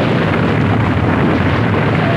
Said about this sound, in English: The entire clearing sinks, collapsing into the cavern beneath it. An explosion flares. Smoke billows into the sky.